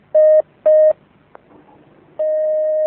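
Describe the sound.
Telephone tones sound as a caller's call connects: two short, mid-pitched beeps, a faint click, then a long, steady tone that holds to the end.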